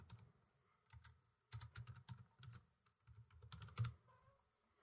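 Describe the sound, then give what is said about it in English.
Typing on a computer keyboard: quick bursts of many crisp key clicks, broken by short pauses, fairly quiet and with no talk. “I just had to type Eldritch swatting into the chat”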